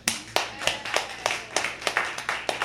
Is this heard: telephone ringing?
no